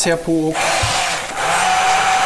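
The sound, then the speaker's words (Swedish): A blender purées canned San Marzano tomatoes for caponata with a loud, steady whirring roar and a faint high whine, after a brief voice at the start. “så passar jag på och passera eller mixa San Marzano-tomat”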